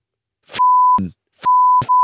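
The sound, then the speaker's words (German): Two censorship bleeps, each a steady, pure mid-pitched tone lasting about half a second, switching on and off abruptly between brief cut-off sounds. “Ja, piep das mal.”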